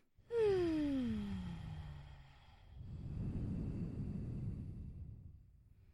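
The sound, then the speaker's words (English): A deep breath during a guided emotional-release exercise. A faint voiced tone slides downward in pitch, then a long, soft airy breath swells and fades, with no talking. “let's take a deep breath”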